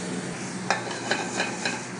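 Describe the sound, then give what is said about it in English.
Shrimp and mirepoix with cayenne and Louisiana hot sauce sizzle as they are tossed in a hot pan: a steady hiss broken by a few soft scraping accents. “Give those a little toss around. Like I said, they should be pretty close to cook, so I can turn off the heat.”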